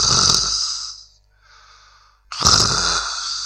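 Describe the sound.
A voice imitating a sleeping postman's deep, drawn-out snoring: two long, loud rasping exhalations separated by a quiet, softer breath, heard alone.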